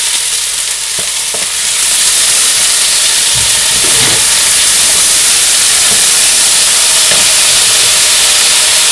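Beans tipped into a hot pan sizzle loudly, a dense steady frying hiss that swells after a quieter opening and then holds for the rest, with no talking.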